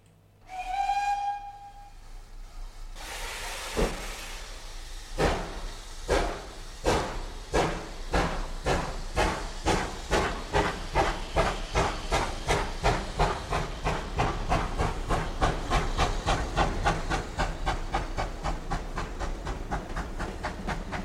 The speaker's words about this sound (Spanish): Vamos a subir al tren, que si no se nos escapa.